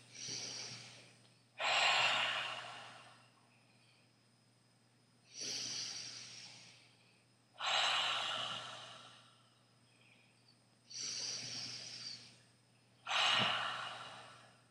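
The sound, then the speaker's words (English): Ujjayi breathing during a seated yoga pose: five loud, hissing breaths that swell and fade in a slow, even rhythm, with quiet gaps between them and a faint low hum underneath. “3 Ujjayi breaths.”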